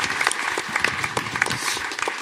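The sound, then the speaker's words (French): Audience applause, a dense patter of many hands clapping at once. The burst is short and steady, with quick overlapping claps at an even, fairly loud level. “On peut applaudir Fibre.”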